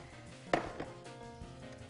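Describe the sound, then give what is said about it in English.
A potato masher pushes into food mixed with regular and cannabis-infused butter, making one soft, muffled thump followed by a couple of fainter knocks, all quiet. “And this is called a potato masher.”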